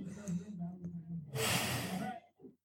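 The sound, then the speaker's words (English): Breathing in and out: a loud, airy rush of breath lasting nearly a second, preceded by a low voiced murmur and followed by a brief softer puff of air. “Can you show us how you breathe? So, like, if you want, like, you could breathe in and out.”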